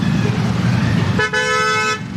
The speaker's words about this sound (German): Ein typischer Morgen in Delhi. Der Verkehr nimmt zu, von überall her ertönen Hupen.